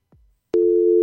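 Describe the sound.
A telephone line tone while placing a call: a soft low click, then a loud, steady mid-pitched tone that starts abruptly and holds unbroken to the end.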